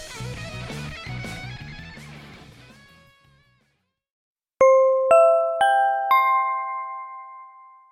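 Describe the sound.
An in-building PA announcement chime rings four bright, bell-like tones in even succession, each ringing out and overlapping, after music fades to silence.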